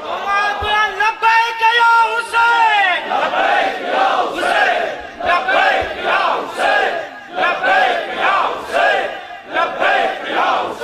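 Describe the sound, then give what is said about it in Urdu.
A crowd chants the religious slogan Labbaik Ya Hussain at a gathering. A single voice calls out first, then many voices join in loud, rhythmic, repeated shouts. “یہ جو لبیک یا حسین کا نعرہ ہے، یہ نعرہ نہیں ہے، نعرہ نہیں ہے کہ آپ نے اپنے دل کی بھڑاس نکال لی.”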